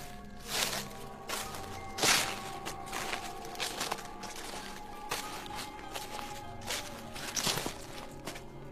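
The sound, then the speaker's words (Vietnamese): Footsteps cross a damp, rain-soaked yard at night toward a house, a few soft, irregular steps over a steady low hum. “mụ nghe ở ngoài sân có âm thanh giống như là tiếng bước chân đang tiến lại gần căn nhà.”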